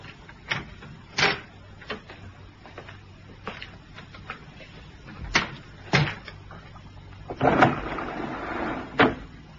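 A deed box is handled and opened: several sharp clunks and knocks at uneven intervals with quiet gaps between, plus a longer rattling scrape near the end.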